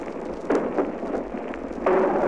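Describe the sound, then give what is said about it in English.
Artillery shells burst during a beach landing, heard as two loud, rough blasts separated by a stretch of rumbling noise. “And there we've hit the beach, just simultaneously with that shell burst that you heard, we hit the beach.”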